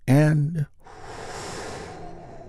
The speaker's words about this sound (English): we're going to do that by taking a big, deep healing breath all together. Here we go.